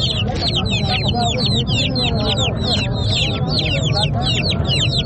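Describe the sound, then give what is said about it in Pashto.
Free-range chickens cluck and chirp densely at a busy Friday market in spring, many overlapping high, bright calls repeating without pause over a low, steady murmur of crowd noise. “دا بیا صحرایي مرغان دي چې د پسرلي د موسم پر اتاک سره یې په شمیر کې زیاتوالی هم راځي”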